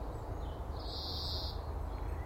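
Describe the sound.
A single high, steady bird call rings out in a sunny garden on a calm, still morning. It lasts under a second and is clear above a constant low background hiss.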